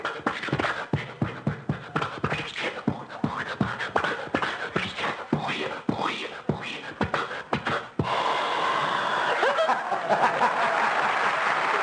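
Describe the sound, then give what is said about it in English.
A man's voice imitates an old Maxwell car starting, producing a run of rhythmic sputtering, coughing bursts, followed by sustained studio audience applause and laughter. “So I said, Rochester, get the Maxwell started. And... He would go out, and you'd hear the Maxwell, and this would be it.”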